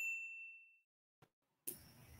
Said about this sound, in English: Subscribe on YouTube and click the notification bell